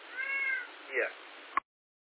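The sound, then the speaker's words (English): A cat meows twice, first a drawn-out, fairly faint call, then a shorter one, followed by a sharp click before silence. “If I ignore him, he starts to meow with me.”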